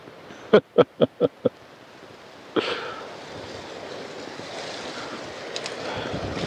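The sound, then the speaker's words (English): Wind blowing outdoors while someone photographs an oak leaf on film, a broad steady rushing that swells in suddenly and persists to the end, preceded by five sharp, evenly spaced clicks. “Wind's picking up again.”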